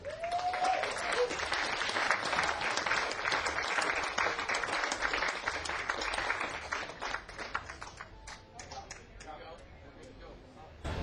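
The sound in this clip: Audience applause welcomes a guest: sustained, dense clapping that holds steady for several seconds and thins slightly toward the end.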